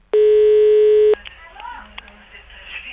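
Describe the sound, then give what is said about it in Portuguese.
A telephone tone sounds while a call is being placed, one steady, even electronic tone lasting about a second that cuts off abruptly, followed by faint line noise. “Vamos lá, vamos ligar.”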